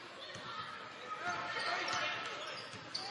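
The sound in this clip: Basketball dribbled on the court during a Warren County game, a few dull bounces faintly heard under steady background noise.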